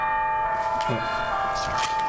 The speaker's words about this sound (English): That's the church bells.